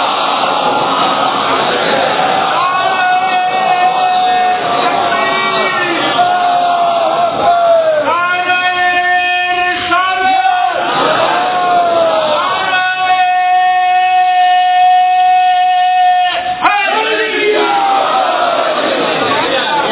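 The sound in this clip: A large crowd at a religious lecture loudly recites salawat in unison, many voices chanting together in sustained, wavering tones with brief breaks between phrases.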